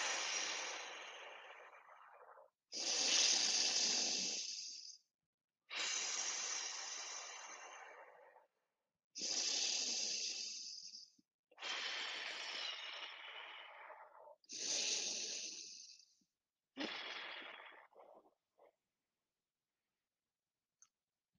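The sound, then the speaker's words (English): Slow, deep breathing in and out during a guided breathing exercise: seven long, airy breaths, each several seconds long, with short silent pauses between them and no talking. “Inhale and exhale. Inhale again and exhale.”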